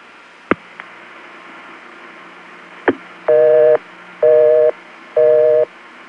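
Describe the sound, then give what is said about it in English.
Telephone busy signal on a line in the Beaufort 728 exchange: a few sharp clicks, then three evenly spaced, loud, steady tone bursts with the start of another at the end. “I found a number in Beaufort 728 that ended in the digits 11 that just happened to be busy.”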